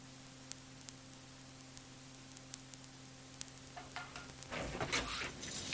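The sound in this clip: Breakfast frying in a pan gives faint scattered crackles and pops over a low steady hum, building into a louder, denser sizzle near the end.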